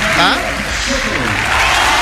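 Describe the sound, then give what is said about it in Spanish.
Chilean tennis players are applauded during their introduction: a dense burst of crowd clapping rising beneath a man's voice. “Hay que ver el aplausómetro, que sabemos quién lo gana siempre.”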